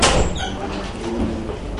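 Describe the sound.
A door being opened during a lesson, heard as a brief, louder burst at the very start that settles into a steady, noisy rumble for the rest of the moment.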